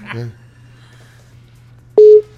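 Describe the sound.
A telephone ringback tone on an outgoing call: one short, loud, steady electronic beep near the end. A brief voice is heard at the start, and a low steady hum runs underneath.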